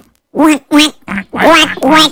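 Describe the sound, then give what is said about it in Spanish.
A voice imitates a duck with several nasal, buzzy quacks in quick succession, loud and close, with short gaps between them. “¿y cómo hace un pato? Un pato.”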